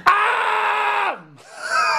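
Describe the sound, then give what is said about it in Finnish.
Screaming in a vocal demonstration of modern singing styles: a loud, sustained screamed tone that drops in pitch at the end, a brief lower sound, then a second long scream, with no other voices. “Voi olla huutoa.”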